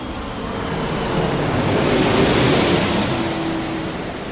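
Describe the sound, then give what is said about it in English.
Steady, broad cabin roar aboard a British Airways Airbus A318 airliner, constant and fairly loud, with a faint low hum running underneath and no voices. “And we have been very, very privileged indeed to come on board the Airbus A318 of British Airways.”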